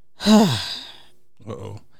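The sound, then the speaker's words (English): A deep, loud, voiced sighing breath, followed after a pause by a shorter, lower breathy sound. “You took too deep of a breath on that one.”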